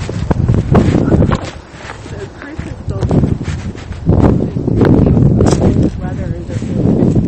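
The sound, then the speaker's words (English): Wind picks up at a cemetery, buffeting the microphone with loud, low rumbling gusts that rise and fall while people talk over it. “So the wind is now picking up.”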